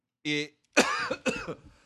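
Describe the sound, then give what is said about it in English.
A person coughs twice in rough, raspy bursts after a short voiced sound, the coughs moderately loud and close together, with silence between the sounds. “there I am again, still coughing”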